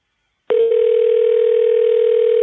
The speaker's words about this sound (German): Ein amerikanisches Klingelzeichen.